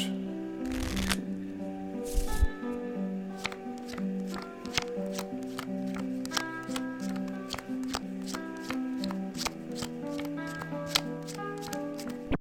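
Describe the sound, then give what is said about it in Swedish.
Playing cards are shuffled poker-style during a card game: a continuous papery riffling full of many crisp, quick clicks and snaps that carries on steadily for several seconds. “jag har inte lärt mig den här pokerblandning, kallas det va?”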